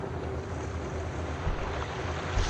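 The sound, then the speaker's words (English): Large waves crash into a boat at sea: a continuous roar of churning water and wind with a brief heavier surge near the end. “Oh, big splash is coming out of the water. Heading right towards them, heading right towards them. Oh, major waves just blasted into the boat, knocked everybody down.”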